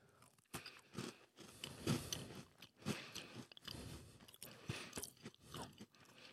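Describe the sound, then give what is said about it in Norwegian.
Faint crunchy biting and chewing of a serina cookie, a Norwegian butter cookie, as many soft crisp crunches in an uneven rhythm, with no talking. “Da prøver jeg den her, ja, som var eh, serinakake.”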